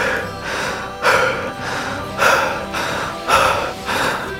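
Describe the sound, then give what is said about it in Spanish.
Strained gasping for air as a pillow presses over a person's face: several rhythmic, breathy gasps about once a second, each swelling and fading, with no talk. “La almohada se enrosca sobre mi cara, comienza a presionar y me voy quedando sin aire para respirar.”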